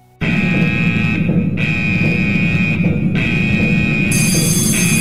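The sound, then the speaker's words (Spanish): A loud, strident alarm sound effect blares: a shrill, steady tone over a harsh buzzing layer, with brief breaks in the tone and no talk. “Es que a lo mejor nuestra alarma no es lo suficientemente ruidosa, estridente y atronadora. Vamos a escucharla.”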